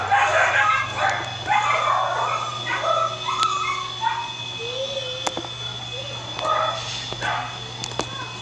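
Small dog whimpering and yipping during a tabletop role-playing session, with several high, wavering whines and short yelps over a steady low hum.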